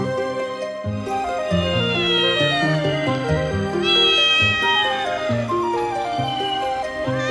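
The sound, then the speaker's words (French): A cat meows on rooftops at night in a long, loud series of drawn-out, wavering cries. The pitch bends up and down from one cry to the next, with no other sound behind it. “D'un toit à un autre, une silhouette noire et féline se faufile avec agilité. C'est un chat qui profite du clair de lune pour se promener.”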